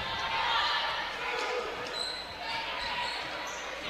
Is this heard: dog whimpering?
no

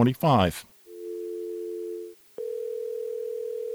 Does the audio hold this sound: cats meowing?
no

